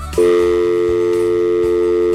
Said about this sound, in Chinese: 好，电话已经被我打通了